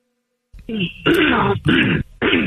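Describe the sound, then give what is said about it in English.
Throat clearing in four harsh, gravelly, voiced bursts, loud and each lasting up to about half a second, separated by short gaps, with no other talk. “Hey, hold on a minute with the throat clearing.”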